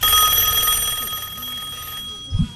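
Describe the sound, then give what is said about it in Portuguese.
A telephone ring tone during an outgoing call, a steady high-pitched electronic tone lasting about two seconds before it cuts off, followed by a brief low thump. “Deixa eu ligar pra esses baitolos aqui, peraí.”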